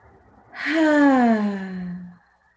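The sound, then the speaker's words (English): A long, deep exhale with a soft voiced, sighing quality, taken during a guided breathing exercise in a healing meditation. Its pitch slides gradually downward before fading out, heard alone with no talking. “take a breath. Inhale through your nose and exhale.”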